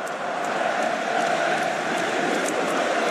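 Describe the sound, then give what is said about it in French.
A rugby stadium crowd at a France–New Zealand match cheers in a dense, loud, steady roar that holds without a break. “Ah, le, public, se, réveille, c'est bien ça.”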